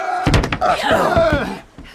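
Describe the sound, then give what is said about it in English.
A heavy bar is dropped across a closed gate, giving a few dull, heavy thuds and knocks in quick succession, then a brief quiet. “Oh, that's phase one. We've got the gate closed and barred.”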